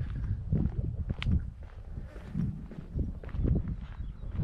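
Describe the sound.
Footsteps of a person walking outdoors make soft, irregular scuffing and crunching steps. They run continuously at a moderate pace, fairly faint, with no clear voices.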